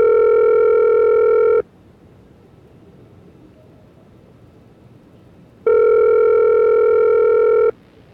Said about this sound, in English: Let me see if I can dial them up.